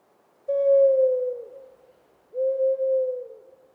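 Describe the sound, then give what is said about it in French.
An owl hoots at night: two long, low, steady hoots of about a second each, each sagging slightly in pitch at the end, with a short silence between them and nothing else heard. “La chouette veillait aussi.”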